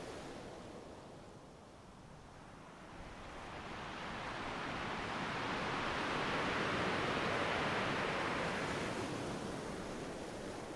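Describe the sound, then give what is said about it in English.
Ocean waves break on a beach in a continuous broad, hissing wash that swells gradually louder toward the middle and eases slightly at the end, with no voices. “Little breakers crackled in the distance, but each one reached high up the beach,”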